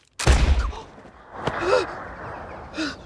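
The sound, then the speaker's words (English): A pellet gun fired with no pellet loaded gives one sharp, loud pop, then a fainter click, with soft breathy vocal sounds in between and after. “If you forget to load the pellet, the gun fires, makes a sound, but releases no shot.”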